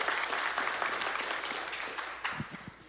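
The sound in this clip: Audience applause welcomes a speaker up to the front, a dense, steady wash of many hands clapping that slowly fades, with a few louder individual claps near the end.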